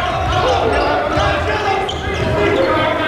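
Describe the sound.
Basketball dribbled on the court during a men's college game, its bounces running under fast play-by-play commentary amid steady loud arena noise.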